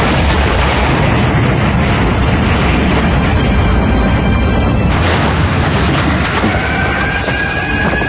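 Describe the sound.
A World War II V2 rocket firing: a loud, sustained roaring rumble that fills the whole clip, changing texture partway through and continuing without a break.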